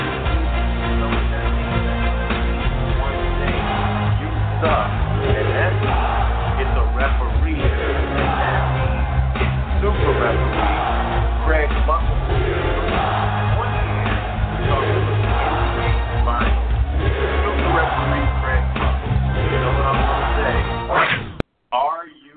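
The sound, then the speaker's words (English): Intro music for a basketball guest plays loud and continuous, a dense track with a steady beat, cutting off abruptly near the end. “But let's hit his intro music to make it feel warm and welcome, because it's been a few weeks. There we go.”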